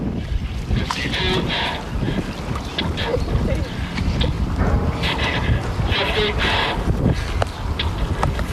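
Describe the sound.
Splashing, knocking and creaking come from a working replica of an early hand-operated submarine being driven on a river in Connecticut. Irregular clunks and watery surges play over a steady rush of wind noise.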